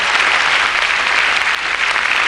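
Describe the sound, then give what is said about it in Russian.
Loud, dense audience applause greets a speaker walking onto the stage at an evening event. The steady clapping runs throughout and dips slightly near the end. “Я немножко стесняюсь таких аплодисментов, когда я выхожу, таких бурных”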